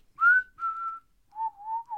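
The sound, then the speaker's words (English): A person whistles a short tune of a few clear, sustained notes, the later ones pitched lower than the first, heard alone without talk. “You should have whistled there.”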